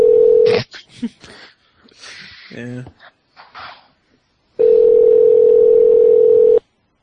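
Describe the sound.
A telephone call being dialed: a short steady dial tone, then a jumble of brief tones and clicks that includes a quick run of dialing tones, and finally a long steady tone lasting about two seconds.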